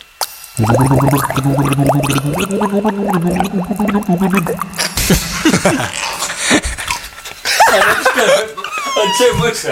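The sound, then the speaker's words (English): A person gargles water to the tune of a folk song, a bubbling, wavering tone that steps through a melody for about five seconds. Laughter and chuckling follow. “Gargling the folk song.”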